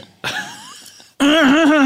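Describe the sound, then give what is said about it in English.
A person clears their throat with a rough, raspy burst, then a louder, sustained voiced rasp with a wavering tone. “Oh, got to clear my old throat.”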